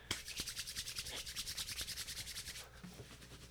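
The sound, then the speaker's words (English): Palms rubbed briskly together in a long run of quick, even strokes, followed by softer rubbing around the belly button as the sound grows quieter near the end. “my hands together gently for really quickly for around 15 seconds... And then rubbing around your belly button that makes you lose weight.”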